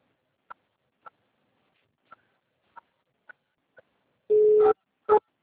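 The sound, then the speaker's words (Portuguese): Telephone keypad tones as a card number is entered on a bank's automated phone line: six short beeps at uneven intervals, then a longer steady tone and one final short tone, with no talk. “por favor, digite o número do seu cartão ou CPF.”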